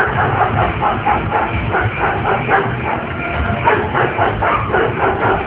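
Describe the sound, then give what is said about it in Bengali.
Two dogs bark fiercely as they charge at a person, a quick run of aggressive barks layered over a loud, dense rumbling noise that continues without a break for the whole clip. “হঠাৎ করে জয়ের দিকে ক্ষিপ্রভাবে ডাকতে ডাকতে তেড়ে আসে দুটো কুকুর, ওদেরকে কেন থামানোই যাচ্ছে না।”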